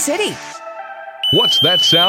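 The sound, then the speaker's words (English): Electronic warning alarm from a Dock Lifeguard boat-dock device, signalling hazardous electricity in the water. A brief toned sound is followed by a steady, high-pitched tone that holds under a person speaking. “That's the sound of the Dock Lifeguard warning you it's not safe to be in the water around your boat dock.”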